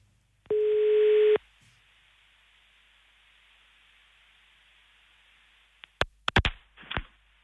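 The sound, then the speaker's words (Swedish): A telephone call rings out with a single steady, buzzing ring tone lasting about a second. Faint line hiss follows, then a few sharp clicks near the end. “Då ringer vi nu på en gång, hoppas att hen svarar.”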